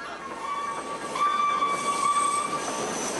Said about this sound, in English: Lights flicker as a train passes by.